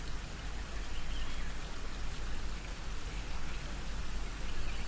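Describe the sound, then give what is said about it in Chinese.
Water flows in a natural setting with a constant, dense rushing hiss, steady and moderately quiet, resembling a brook or light rain. “置身于大自然里面，流水的声音包围住你，”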